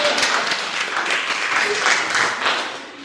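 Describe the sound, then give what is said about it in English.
Audience applause fills the whole stretch as a steady wash of many hands clapping, fairly loud and even without clear gaps. “Can you give a round of applause?”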